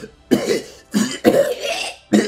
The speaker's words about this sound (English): did you hear how many times Biden fucking coughed?